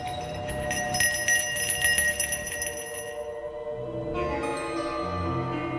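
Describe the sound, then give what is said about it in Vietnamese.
A silver bell shaken in a ritual by a priest circling it around burning incense sticks on a riverbank: a continuous, shimmering ringing rich in high overtones, which shifts to a steadier, lower-sounding resonance partway through. “Thầy đưa tay lắc chuông, cứ thế mà khua nhiều vòng xung quanh 3 que hương”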